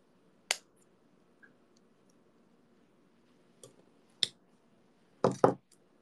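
Scissors cutting out a small piece: a few sharp, faint snips scattered irregularly through near silence, the last two coming in quick succession.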